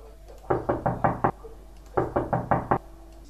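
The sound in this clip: Knocking on a bedroom door: two quick runs of several crisp, evenly spaced raps separated by a short pause, heard alone without any voices.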